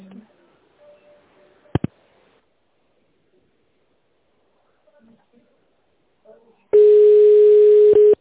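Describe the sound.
A telephone ringback tone sounds while a call is transferred: one steady, loud, unbroken tone starts suddenly after a mostly quiet stretch with a few faint, brief sounds, and holds until the end.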